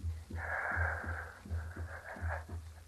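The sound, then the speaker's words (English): A deep final breath drawn in under a hood before holding it: a long, wheezy inhale of about two seconds over a steady, low, rhythmic pulsing. “Now, the last breath, as the yogi taught me.”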